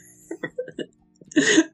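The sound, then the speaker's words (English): A brief throat clear from someone standing behind a person during a proposal: a few soft, short grunting bursts, then a louder, longer raspy clearing near the end, with no talk. “But then you hear a little throat clear behind you.”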